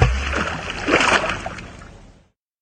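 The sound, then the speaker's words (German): Water splashes and churns as a man jumps into a fjord, a broad rushing surge that swells in the middle, then tapers off and falls silent. “schnappte sich den großen Stein, an dem er zum Tauchen ein Seil gebunden hatte, holte einmal tief Luft und sprang in den Fjord.”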